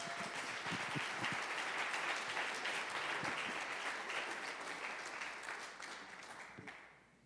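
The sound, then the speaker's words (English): Audience applause welcomes a guest preacher at a morning church service: dense, steady clapping that holds level for most of the stretch, then fades out near the end. “So would you guys please put your hands together and welcome Jonathan Robinson.”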